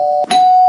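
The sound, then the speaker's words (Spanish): A doorbell gives a clear, loud ding-dong. Two bright, sustained chime tones are split by a brief knock-like gap. “Y es un timbre que supone que vienen las pizzas de Papa John's. Ya sabes que tenemos las pizzas de Papa John's, que suena el timbre siempre en Radio Marca Bilbao, y cuando suena el timbre vienen las pizzas de Papa John's.”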